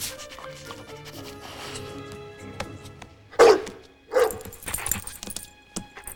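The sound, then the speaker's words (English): Cartoon dogs sniff around a room and at magazines: quick, breathy snuffling bursts, two of them noticeably louder, with small dog noises scattered among them. “The dogs and Wattlesworth sniff the room. Drooler sniffs the magazines.”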